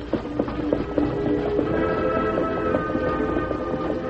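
Horse hooves clopping as a wagon is pulled along, a regular beat of muffled thuds over a continuous rumbling, rolling noise.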